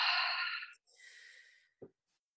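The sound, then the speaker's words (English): People take a deep breath together, drawing air in through the nose and releasing it through the mouth: two long, airy, hissing breaths, the first louder and fuller, the second softer and thinner, with no talking. “let's just take a deep breath. Yeah. In through your nose and then out through your mouth.”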